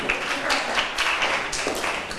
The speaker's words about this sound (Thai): ขอบคุณกลุ่มที่3ปรบมือให้เพื่อนหน่อยค่ะ